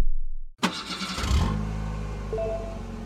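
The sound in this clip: Engine of a car with a manual gearbox starting: after a brief silence, a short crank catches and settles into a steady, low rumbling idle that runs to the end.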